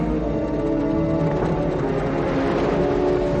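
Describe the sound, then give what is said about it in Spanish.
A car engine runs at a steady low rumble as the vehicle stops beside a man walking along a road, an even tone with no clear change in pitch. “Kimbal se va del área de servicio y anda por una carretera. Un coche se para a su lado y una mujer le abre la puerta del pasajero.”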